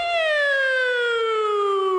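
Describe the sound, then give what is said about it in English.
A voice imitates a soothing police siren, holding a single smooth, clear tone that glides slowly downward. The sound is alone, with no other noise. “Cop sneaks up behind you. They have that nice soothing siren.”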